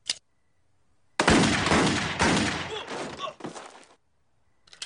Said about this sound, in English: Homer, you use your gun as a can opener? I use it for everything. Watch me turn on the TV.